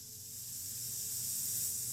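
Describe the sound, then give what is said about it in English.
Sound effect of urinating, a faint, continuous hissing spray of liquid that swells slightly and stays steady for about two seconds. “you hear that? That's the sound of them taking a leak down their leg.”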